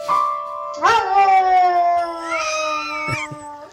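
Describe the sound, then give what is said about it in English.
A dog howls in a long, sustained, tonal wail that lasts a few seconds, loud and alone, with a rougher burst near the end. “That was a dog.”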